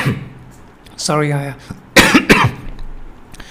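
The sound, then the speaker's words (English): Two sharp, dry coughs from a person with a lingering cough after a cold, coming after a short voiced throat sound and set against a quiet background. “I have a cough, and I had some cold like if a week or so back, and it has improved.”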